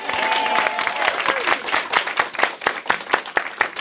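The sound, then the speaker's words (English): Audience applause at a live community event at a hospice in San Mateo: a thick burst of many hands that thins into sparser, distinct individual claps. “And thanks to all of you in our audience here. Let's hear it, audience.”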